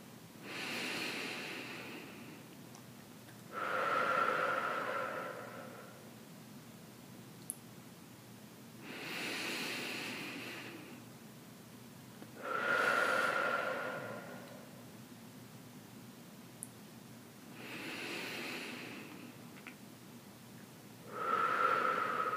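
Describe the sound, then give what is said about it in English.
Three slow, deep breaths during a guided relaxation exercise, each a soft airy inhale followed after a short pause by a fuller, louder exhale, evenly spaced and unhurried, with no talking. “we're going to start with three deep breaths.”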